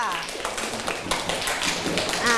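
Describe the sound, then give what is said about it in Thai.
Classroom students clap for a classmate's answer with scattered, uneven claps and taps of moderate loudness, while voices talk over them. “กลุ่มอื่นเห็นด้วยปรบมือให้เพื่อนหน่อยค่ะ”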